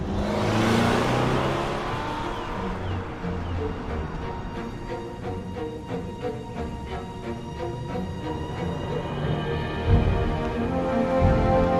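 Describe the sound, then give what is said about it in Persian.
A car accelerates, its engine a loud, sustained drone with a rough burst of noise at the start. “گاز بده یکم.”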